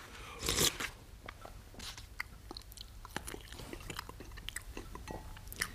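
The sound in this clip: Faint, crunchy chewing from someone eating a meal: small irregular clicks and bites, with a louder rustling burst near the start.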